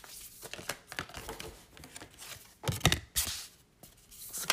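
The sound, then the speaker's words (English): Oracle cards being pulled from a deck, with many soft, irregular rustles, swishes and light taps of card stock being handled. The sounds are faint, with a few sharper bursts toward the end. “I've just pulled cards from the, what's it called? The Threads of Fate Oracle”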